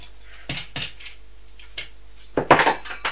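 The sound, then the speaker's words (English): A spoon dropped on the floor gives a few light metallic clinks and clatters, short sharp taps followed by a busier rattle as it settles. “Oh dear. You've dropped one spoon on the floor.”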